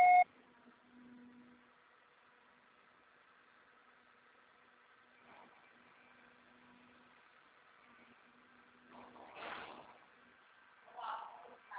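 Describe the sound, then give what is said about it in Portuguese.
A short, clear voicemail beep sounds at the very start, signalling that recording is about to begin, then gives way to faint, low background hum with soft rustles and no other distinct sound. “Sua chamada está sendo encaminhada para a Caixa Postal e estará sujeita à cobrança após o sinal. Deixe seu recado.”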